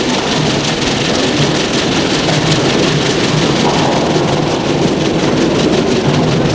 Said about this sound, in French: Le train arrive en gare.